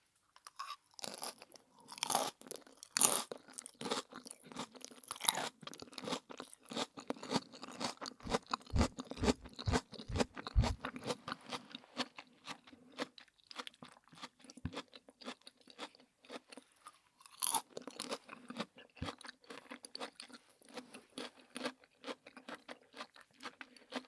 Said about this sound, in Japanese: 私は食べる